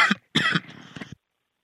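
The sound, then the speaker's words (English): Harsh coughing and throat clearing from someone nearly choking: a few rough, abrupt coughs in quick succession, trailing into a raspy clearing of the throat, then silence. “Excuse me, thought I was going to choke myself to death.”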